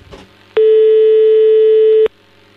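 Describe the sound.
A telephone line tone sounds while a call is being placed: one loud, steady electronic pitch holding for about a second and a half, then cutting off abruptly, with nothing else around it.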